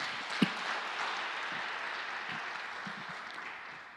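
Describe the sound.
Applause welcomes visitors at a gathering: a steady wash of hand clapping from many people with a few sharper claps, fairly soft overall and easing slightly toward the end.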